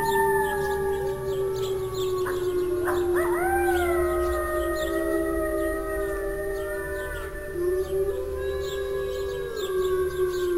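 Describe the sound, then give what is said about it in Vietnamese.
Wolves howl together in a pack chorus. Several long, sustained howls overlap, each bending up and down in pitch, and the sound stays loud and continuous throughout. “Mấy con sói hướng về phía âm thanh phát ra, hồi đáp lại một tràng. Tiếng sói tru âm vang mà mạnh mẽ ấy”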